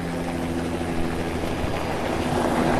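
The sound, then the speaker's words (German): A helicopter flying overhead above a mountain village in an earthquake-stricken district of Nepal, heard as a loud, steady, rumbling engine and rotor drone that holds at an even level throughout. “Hin und wieder taucht ein Hubschrauber am Himmel auf, der in Sekundenschnelle auch schon wieder weg ist.”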